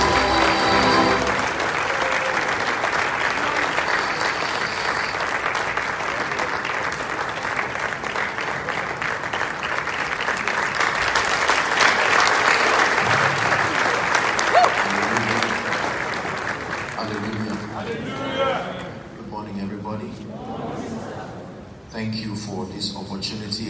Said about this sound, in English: Ladies and gentlemen, with our standing ovation, let's make welcome Apostle Joshua Salmon to Impact Convention 2023.